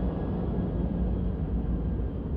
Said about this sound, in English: Just give me a moment. Let the plane go.